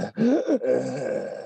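Heavy, groaning breathing from a man, heard over a film's do-it-yourself opening montage in which he welds gloves together. The voiced, moaning breaths are loud and continuous for about a second and a half.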